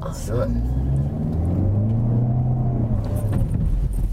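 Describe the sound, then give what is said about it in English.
Jaguar car at a car show driving fast on a smooth course: a steady, loud low engine rumble with wavering engine tones under people talking. “This course is smooth, so you can drive faster.”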